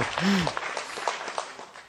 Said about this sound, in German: Der gefällt mir. Der ist gut. Applaus.